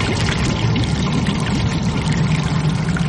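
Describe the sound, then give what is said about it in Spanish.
Water gushing from a hose into a fish tank being filled: a loud, steady, unbroken rushing pour with no voices. “Más tarde, está llenando la pecera de agua con una manguera.”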